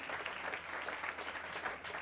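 An audience at a live band show breaks into applause, making continuous, even clapping with no pauses from start to finish.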